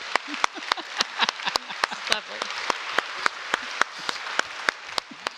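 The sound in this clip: Audience applause for someone being congratulated at a church gathering: a sustained, moderate patter of clapping with sharp individual claps standing out, and voices briefly heard under it.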